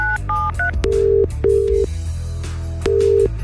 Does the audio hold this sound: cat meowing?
no